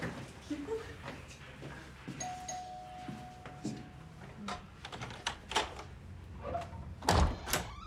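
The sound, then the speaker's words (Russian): An electronic doorbell at an apartment door off a stairwell rings one steady, sustained tone, then the door opens with several sharp clicks and knocks; the sounds are quiet overall. “Подбегают к двери и звонят. Дверь открывает мать Кирилла.”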